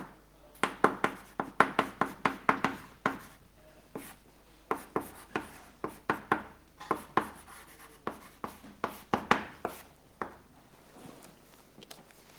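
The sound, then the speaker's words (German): Handwriting of a definition of natural transformation during a maths lecture: many quick, scratchy pen strokes in bursts, with a short pause near the middle and softer strokes toward the end. “Also ich schreibe erstmal die Definition von der natürlichen Transformation hin.”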